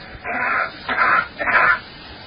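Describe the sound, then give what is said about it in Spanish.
A person coughs, first as on Earth and then in a simulation of coughing on Mars: three short, breathy, muffled bursts with brief gaps between them. “Vamos a repetir la tos en la Tierra y la tos en Marte. That's coughing on Mars.”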